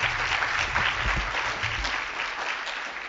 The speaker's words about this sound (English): So please put your hands together to welcome her.